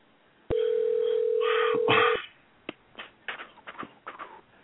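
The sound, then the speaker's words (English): Telephone dial tone heard while a number is being dialed: a loud, steady, unbroken tone lasting under two seconds. It cuts off sharply and is followed by a string of brief, irregular, fainter sounds. “We are dialing.”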